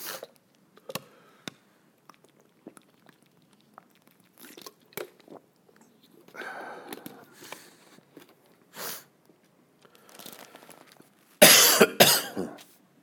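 Coughing from a tickle in the throat: a loud cluster of a few harsh coughs near the end, after scattered faint clicks and small mouth noises in otherwise quiet surroundings.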